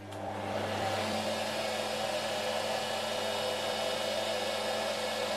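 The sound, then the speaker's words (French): A twisting machine running in a yarn spinning mill, assembling single strands into finished yarn: a steady, loud, even whir with a constant low hum, unbroken throughout and with no voices. “l'assemblage des solitaires, le fil définitif, va se faire sur la machine suivante qu'on appelle la retordeuse.”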